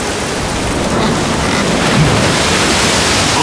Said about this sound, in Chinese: 不好，台风逼近了，大家快走，否则就来不及了。